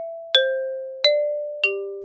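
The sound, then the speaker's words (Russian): An apartment doorbell plays a simple, off-key melody of three clear chime notes, each struck and then ringing on, stepping down in pitch one after another. “Скромный чиновник решительно позвонил в дверь.”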